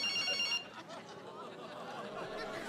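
A mobile phone ringing: a high, tonal electronic ringtone sounds briefly at the start, then cuts off, leaving a faint murmur.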